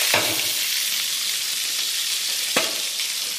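Food sizzling in a frying pan while cooking: a steady, loud, hissing crackle throughout, broken by a couple of brief, sharper pops, with no talking.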